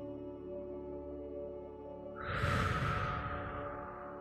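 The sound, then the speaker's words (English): A deep, cleansing breath in a guided meditation, a soft rush of air that swells and slowly fades over a quiet, sustained musical drone. “Now place your hands on your heart area once again and do another deep, cleansing, refreshing breath.”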